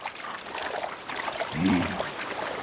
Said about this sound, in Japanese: 滝に打たれて己を鍛えるのか。 さすが滝、凄まじい水の重さだ。